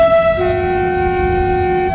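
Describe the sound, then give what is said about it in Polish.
Warning horn of an approaching train at a level crossing, sounding as one steady, loud, sustained chord of tones that holds unbroken throughout, with no other sounds over it. “I nawet sygnał ostrzegawczy nadjeżdżającego pociągu nie robi wrażenia na kierowcach.”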